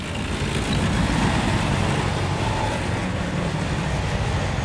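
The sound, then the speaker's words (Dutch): A military tank driving past in Ukraine, heading toward the front with a Ukrainian flag on its roof. It makes a dense, continuous rumbling roar of engine and tracks with heavy low rumble, steady and loud throughout. “En dit is het geluid van een tank.”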